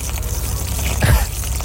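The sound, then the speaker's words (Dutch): Water splashes and trickles as plants at a workplace are watered, with one short, fuller gush around the middle standing out against a steady wash of soft noise. There is no talking. “die kreeg de opdracht van zijn leidinggevende om alle planten water te geven”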